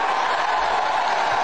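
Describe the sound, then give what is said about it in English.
Audience applause at a speech: an even, steady wash of clapping that keeps going without a break. “That's an applause.”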